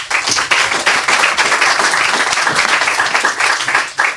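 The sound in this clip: Applause for a young author about to read his Halloween story: an audience claps briskly and steadily for about four seconds, dense and even, with no voices over it.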